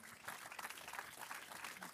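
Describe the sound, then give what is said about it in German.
Faint applause from an audience, a soft, rustling patter of clapping that stays fairly even in level across the short clip. “Ja, dafür gibt's Applaus.”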